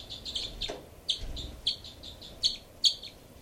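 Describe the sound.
Birds calling in a rapid series of high, sharp chirps, with a few louder, more piercing notes standing out among many softer ones, heard alone without talk.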